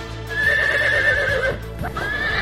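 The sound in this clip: A horse neighs in At-Bashy district, Kyrgyzstan, where horses are being slaughtered. A loud, sustained whinny with a wavering pitch is followed by a second, shorter neigh.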